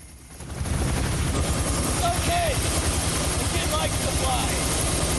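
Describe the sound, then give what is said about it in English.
Helicopter hovering overhead while a rope is lowered from it to a man asleep on a sun lounger. A steady, loud rotor and engine drone swells in after a brief quiet start and holds throughout, with brief voice-like sounds over it. “Gene drops a rope down from the chopper.”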